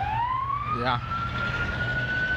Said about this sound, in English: it's an ambulance actually. So let's just wait for it to pass.